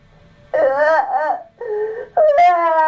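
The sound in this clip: A child cries in long, high, wavering wails. There are three sobbing bursts in a row with short breaks between them, loud and with no other sound.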